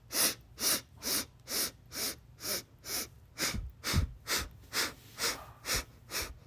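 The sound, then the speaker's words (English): Quick, regular breathing in and out during a breath-work exercise, about fourteen soft airy breaths in an even rhythm, with no talk. “Inhaling again, something you need. Exhaling what you don't.”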